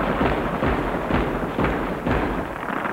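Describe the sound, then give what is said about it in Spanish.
Gunshots at a shooting range, several dull, muffled reports thumping in an uneven rhythm over a low, steady rumble. “practica en el campo de tiro”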